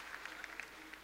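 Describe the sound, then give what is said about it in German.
Audience clapping, with many hands striking out of sync to form a scattered, uneven patter. It is faint and lasts only a moment. “Und was ihr da jetzt hört, das ist nicht phasengleich. Es ist eine nicht phasengleiche Resonanz. Ihr hört also ganz viele Signale, diese Klatschsignale, und die decken sich nicht.”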